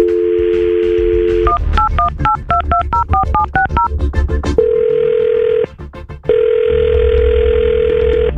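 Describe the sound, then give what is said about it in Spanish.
A phone number being dialed: a steady dial tone gives way to a rapid run of many touch-tone key beeps and a few clicks, then two long, even ringing tones separated by a short gap, all over a constant background hiss. “Ok, vamos a marcar.”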